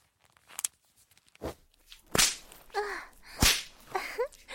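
Leather belt lashing bare buttocks: several sharp, loud cracks spaced roughly a second apart, with vocal sounds between the strikes.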